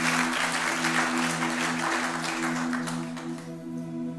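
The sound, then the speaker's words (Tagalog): A church audience applauds and claps in praise of the Lord. The loud, dense clapping sounds over steady, sustained musical tones and fades somewhat toward the end. “Palakpakan po natin yung Panginoon.”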